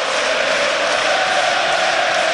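Football fans of the black-and-white side in a stadium applaud the Italian coach, forming a dense, unbroken crowd roar with a sustained tonal hum running through it.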